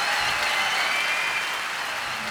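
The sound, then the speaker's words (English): Round of applause from an audience at a big band concert of Ray Charles songs, a dense, even patter of clapping held at a steady level throughout. “So let's give a big round of applause to this situation.”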